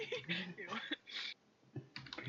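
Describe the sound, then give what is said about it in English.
Quiet keyboard clicks from typing on a computer keyboard sit under people chatting, with a brief pause midway before the taps resume. “I'll type it.”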